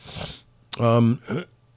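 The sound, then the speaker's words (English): A person clears their throat with a breathy intake, then a sharp, voiced rasping burst followed by a shorter second one, brief and fairly loud. “just clearing my throat, sorry.”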